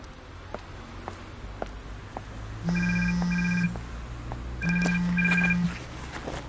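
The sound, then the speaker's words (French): A telephone rings with two bright electronic ringtone bursts, each about a second long and separated by a short gap, over faint regular clicking in the background. “la chef m'appelle”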